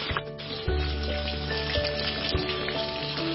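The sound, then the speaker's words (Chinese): Pufferfish sizzling as it fries in oil with scallion and ginger, a steady crackling hiss that runs throughout, with a few soft bumps rising above the frying. “河豚本身呢是非常腥的，用油煎一下可以起到去腥的作用。 下入葱姜，葱姜呢是具有解腥去异味。”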